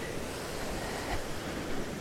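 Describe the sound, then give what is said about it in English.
Ocean waves breaking on an Indian Ocean beach, a faint, steady rushing wash of surf without clear breaks. “Yeah, another 2 people sitting in the sand just watching the waves. You could watch the waves forever, couldn't you? Just sit there and look out into the ocean, the Indian Ocean”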